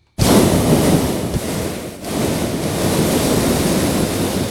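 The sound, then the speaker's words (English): Hot air balloon propane burners flaring amid rain and wind: a loud, broad roar bursts in abruptly, dips briefly partway through, then holds steady and strong. “Rain and winds, of course, not friendly to hot air ballooning. But baskets are out, burners are flaring up.”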